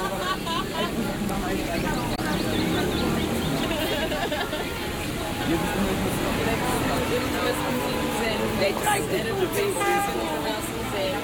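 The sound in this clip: A tram passes across the Hofplein city square in an imagined soundscape. Its low rolling rumble is blended into a dense, steady bed of crowd chatter and overlapping conversations.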